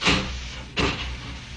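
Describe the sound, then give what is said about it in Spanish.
An automatic airtight door seals shut at the press of a button, giving two short hissing whooshes, the second sharper, over a faint low hum. “Doris oprimió un botón y la puerta se cerró herméticamente”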